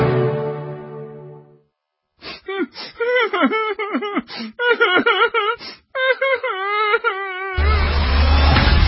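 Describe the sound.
Whining sound effect in a radio show promo: a run of whiny, whimpering vocal cries with wavering, gliding pitch. A sustained tone comes before it, and a burst of noise closes it.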